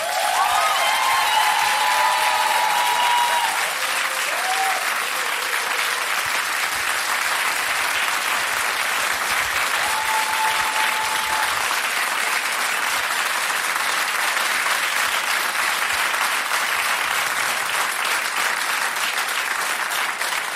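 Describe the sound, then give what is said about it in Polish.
Audience applause for a musician at a concert: a dense, steady wall of clapping that stays loud and even for the full stretch, with a few brief higher tones near the start. “brawa dla niego.”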